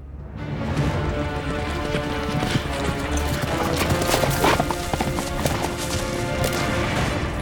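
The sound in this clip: Galloping hooves of a horse-bodied centaur fleeing at full speed, a dense, continuous drum of fast hoofbeats that stays loud and steady throughout without a break.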